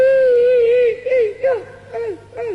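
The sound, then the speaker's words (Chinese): A performer vocally imitates a woman crying: a long, high wavering wail that is followed by a few short, catching sobs whose pitch dips and falls, clear and alone without other sounds. “这也是哭， 这就是哭。”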